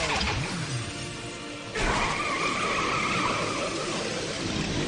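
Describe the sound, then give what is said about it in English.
A video game summon transforms into a motorcycle: a sharp, bright burst of engine noise with a skidding tire squeal cuts in partway through, after a quieter whooshing lead-in, and the harsh skid rings on to the end. “the summons are yours, and here they are. Transforming into a motorcycle.”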